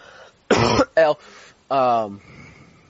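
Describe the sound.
Someone coughs and clears their throat with a coconut piece stuck in it. Three short, voiced, strained bursts, the last one longest, with no other sound in between.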